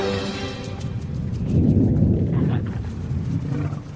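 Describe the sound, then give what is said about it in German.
A deep, sustained rumble like thunder from underground swells through the low range and stays loud and continuous for about four seconds, with no voices over it. “Sag mir, dass das dein Bauch war. Psst. Das war bestimmt bloß Donner von unter der Erde.”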